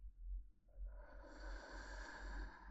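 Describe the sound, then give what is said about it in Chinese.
Slow breathing through the nose while smelling a scent held on a hand: a soft, continuous airy rush lasting about two seconds over a steady low hum. “吸气，吐气，再吸，吐，让所有的味道全部从你的鼻腔进入到你的肺里面。”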